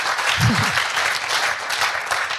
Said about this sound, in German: das ist zunächst einmal dein Applaus, lieber Jean.